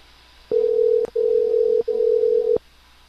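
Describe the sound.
Telephone line tones while calling someone back: a loud, steady mid-pitched tone broken by sharp clicks into three separate stretches, each roughly half a second to just under a second long.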